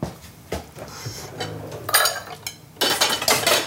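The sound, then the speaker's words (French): Crockery clatters as a bowl is taken out and set down to hold seeds during kitchen preparation: a few sharp knocks and rattles of dishes and cutlery, the later ones loudest, with no talk. “Alors je vais prendre un bol pour mettre les graines.”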